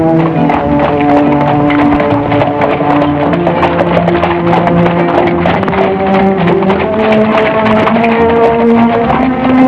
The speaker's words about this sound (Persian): سیندرلا سوار کالسکه سهرامیز شد و خیلی سریع به طرف قصر حکمران حرکت کرد.